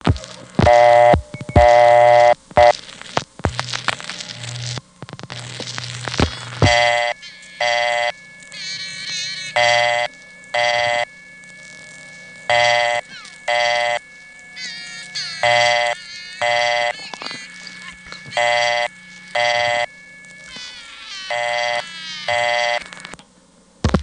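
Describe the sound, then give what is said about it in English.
A talkable partial-dial tone on a telephone line sounds as a steady high tone. Over it, a child's voice sings in short, repeated, evenly spaced phrases, after a more jumbled opening few seconds. “instead of going to a recording, were going to a tone usually used for partial dial conditions. That tone was talkable, and on the day I recorded this, there was a kid singing on it.”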